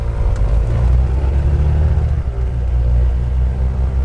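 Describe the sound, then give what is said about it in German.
The engine of a small sea-rescue spotter aircraft revs with passengers aboard, giving a loud, dense, low droning rumble with steady engine harmonics throughout. There is no talk. “Als wir endlich alle im Flieger sitzen, lässt Mirko den Motor aufheulen.”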